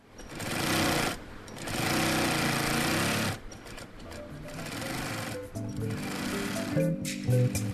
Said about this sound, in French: il faut faire tourner les machines à coudre pour livrer la dernière commande à temps.